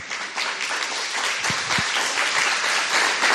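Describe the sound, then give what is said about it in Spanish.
An audience applauds at a gathering as two people are called forward, a steady, dense patter of many hands that holds at an even level throughout, with a couple of low thumps near the middle. “le vamos a hacer un aplauso para que”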